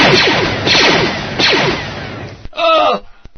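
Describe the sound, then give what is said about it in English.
Blaster gunshot effects from a Star Wars miniatures tabletop game: a few rapid, sharp zapping sweeps that fall in pitch, loud and overlapping, followed by a short separate burst. “That woman with the two Danishes strapped to the sides of her head has shot me in the foot.”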